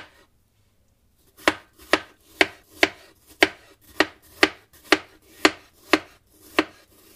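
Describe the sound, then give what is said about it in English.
A knife slices strawberries on a cutting board, the stem side set down and the blade held parallel to the board. After a short silence comes a steady, even series of about a dozen crisp cuts, with no talk. “I will put the side that had the stem down on the cutting board and then hold my knife parallel to the cutting board and just choose the thickness I want.”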